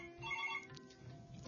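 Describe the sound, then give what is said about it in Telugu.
A telephone ringtone for an incoming call: a faint, short run of bright melodic tones lasting about half a second, then trailing off into quiet. “మనకు call వస్తుంది, call మాట్లాడాక మళ్ళీ continue చేసుకుందాం.”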